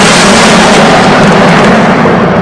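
Lightning thunder crashes as a loud, dense roar with a rumbling low end. It holds steady for the whole stretch with no talking.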